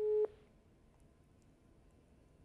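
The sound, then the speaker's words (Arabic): A telephone busy tone sounds as a phone-in caller's line disconnects: one short, steady, mid-pitched beep at the start, followed by faint line hiss. “الخط فصل.”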